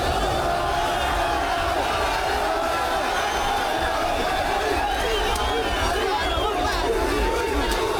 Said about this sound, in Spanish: Este era el sonido de Londres después de la derrota de Marruecos.